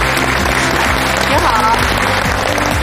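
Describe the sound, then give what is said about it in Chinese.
A studio audience applauds to welcome a guest expert, a traditional Chinese medicine professor, onto a health programme: dense, steady, loud clapping with a tonal backing beneath. “让我们掌声欢迎啊，东城中医院的特聘专家，同时呢也是北京中医药大学的教授赵忠江赵总。”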